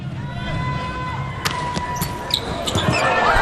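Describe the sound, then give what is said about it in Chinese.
A volleyball serve in a match involving China's team: one sharp smack of the ball stands out over steady crowd noise. “李永贞发球”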